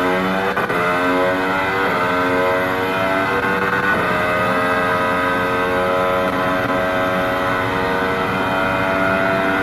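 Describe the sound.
A Formula One car runs at speed on the Baku street circuit in Azerbaijan, flat out on a stretch without braking. Its engine holds a loud, sustained, high-pitched tone throughout, with a brief shift in pitch near the middle.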